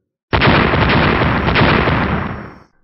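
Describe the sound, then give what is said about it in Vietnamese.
One explosion sound effect for a fantasy battle: a sudden, loud, deep roar that holds for about two seconds, then fades out quickly, with no talk. “Những tiếng nổ kéo dài liên tục không ngừng một khoảnh khắc nào, có thể thấy hư không chấn động không thôi.”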